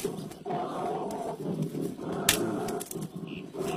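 A bear roars in a low, rough, drawn-out growl in a dramatized audio story. The fairly faint roar runs almost throughout, with a few swells and brief breaks.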